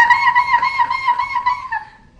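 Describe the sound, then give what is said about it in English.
A person imitates a seagull call with the voice: one sustained, nasal, slightly wavering cry that lasts about two seconds and trails off at the end. “And then the seagull.”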